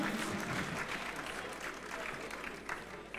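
An audience applauds musicians after a concert, with steady, dense clapping that holds at an even level throughout.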